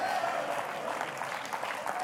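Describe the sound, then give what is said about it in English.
Hands clapping in a church during a spirited sermon on praise, a steady wash of many claps at moderate volume with no clear beat. “So I'm not going to stop clapping my hands, devil. And I'm not going to stop dancing in the church.”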